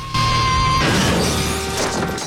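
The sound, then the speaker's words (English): A van crashing into a tree makes an abrupt, loud burst of crashing noise that holds as a dense crunching roar. A steady ringing tone underneath cuts out early. “His newly severed arm drops onto Pike, who then smashes into a tree.”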